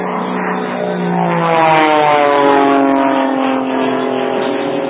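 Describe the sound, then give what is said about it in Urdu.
An approaching airplane's engine drones as a loud, steady harmonic hum that swells slightly midway and holds, with no voices. “یہ ایک اور جہاز آ رہا ہے”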